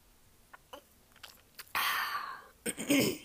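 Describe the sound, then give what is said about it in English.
Swallowing a sip of rosé cider gives wet mouth and throat sounds. A few faint clicks lead into two loud, noisy gulps, with no talking. “There's actually a rosé sin cider that I'm drinking and I'm going to do it now just so you know how delicious it is. Here, here my swallow.”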